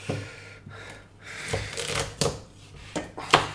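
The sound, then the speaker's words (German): A knife chopping the last quarter of a carrot into small pieces for carrot-parsley-walnut falafel, giving several sharp, irregular chops on the board over a soft, steady background noise. “so dann wird noch das letzte Viertel hier klein geschnitten von The Carrots.”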